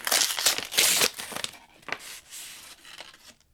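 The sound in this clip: A paper envelope being torn open and handled, with loud bursts of tearing and crinkling at first, then softer, scattered rustles that fade. No one speaks.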